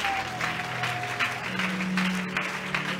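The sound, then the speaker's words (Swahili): Applause from a church audience: continuous, dense clapping that stays fairly loud and steady from start to finish, with sustained tones held underneath. “Pe Yesu makofi kama unakubali.”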